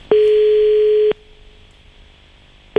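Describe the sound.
Telephone tone heard while calling again: a steady, mid-pitched electronic tone lasts about a second and cuts off into faint line hiss. A second identical tone begins right at the end.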